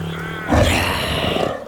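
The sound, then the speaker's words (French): A single loud roar attributed to a prehistoric sabre-toothed tiger that hunts from ambush. It bursts in suddenly, then holds as a rough, throaty rumble that slowly fades toward the end. “Le tigre à dents de sabre chasse en embuscade.”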